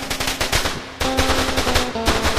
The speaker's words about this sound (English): Who shot the German machine gun? Is that a Gatling gun?